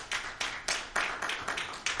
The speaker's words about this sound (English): Give God some praise. Give him one more clap offering. One more praise offering.